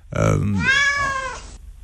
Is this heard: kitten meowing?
yes